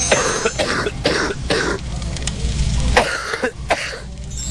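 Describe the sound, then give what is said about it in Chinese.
Deep, heavy, phlegmy coughing from thick, stubborn phlegm, a run of several rough, wet bursts at an uneven pace, heard alone without talk. “顽痰在脾呀，它这个咳的声音应该是更往里了哈， 咳声或者痰声相对比较深一点啊，比较重浊一点 啊，什么样呢？我们一起来听一下。”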